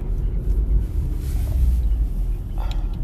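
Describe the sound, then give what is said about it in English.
Steady low road rumble inside a moving car, a continuous deep droning roar with faint wind noise and no talk. “So, I'm in Jenny's car right now, going to pick her up from Chicago.”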